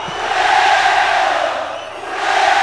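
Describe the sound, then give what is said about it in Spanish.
Loud concert audience chanting and cheering together at a 1999 symphonic rock show, a dense, steady roar of many voices that swells, dips briefly and rises again. “Cuando el público empieza a entonar cánticos europeos, que se oiga con huevo.”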